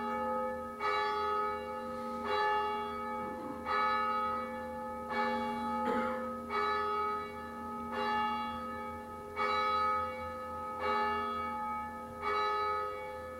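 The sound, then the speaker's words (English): Bell strokes ring out at a slow, even pace, about one every one and a half seconds. Each is a bright metallic tone with long, sustained overtones, fairly faint and heard on its own without talking. “Wait for the bells.”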